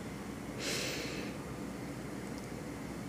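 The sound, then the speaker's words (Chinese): A single deep inhale through the nose, a soft airy hiss lasting about half a second over a faint, steady background noise. “从鼻子深深的吸气”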